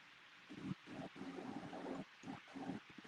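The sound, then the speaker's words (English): Stirring and mixing of fishing bait colors, heard as quiet, rhythmic wet swishing in repeated strokes separated by brief pauses, with no voices. “So I heard you doing a little stirring in the background”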